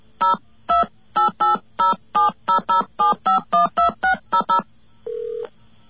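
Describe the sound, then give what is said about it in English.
Telephone keypad dialing tones from a faulty keypad: fifteen short, evenly spaced electronic beeps at varied pitches in a quick run, then a single longer, lower steady tone. “Let's see what went wrong there and try it one more time. Something wrong with our keypad there.”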